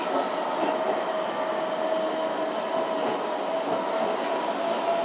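Metro train running as it approaches a station, giving a steady, even rumble with a faint high whine throughout and no breaks or pauses.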